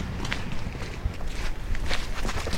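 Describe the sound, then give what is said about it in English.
Footsteps crossing a sand tombolo, a run of soft crunching steps in an even walking rhythm, fairly loud and alone. “Can we walk down then? Yeah, let's walk do across it. I've never walked across a tombola before.”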